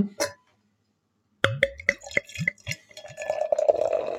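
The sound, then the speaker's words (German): A can of alcohol-free Weiermann IPA beer is opened, with a short knock first, then a sharp crack of the tab followed by fizzing, dripping and steady trickling liquid sounds, with no talk. “Ja, das Kronkorkenöffnen vermisse ich hier ein bisschen. Das ist hier alles nur Dose. Ja, habe ich vorhin gehört, ne? War eindeutig eine Dose.”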